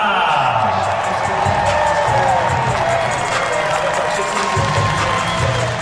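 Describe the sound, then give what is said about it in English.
A stadium crowd at Nissan Stadium roars for the introduction of a new designated player, a loud, continuous wall of cheering and shouting voices that never lets up across the whole stretch. “Ake Loba, introduced to the fans inside Nissan Stadium last week. Ake Loba! That was the chance going. You got the chant going.”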